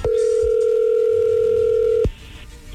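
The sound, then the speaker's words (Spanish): A telephone dial tone sounds as a loud, steady, unbroken hum for about two seconds, then cuts off abruptly, leaving only faint low background noise. “A ver, vamos a marcarle, Héctor, a tu esposa Yolanda”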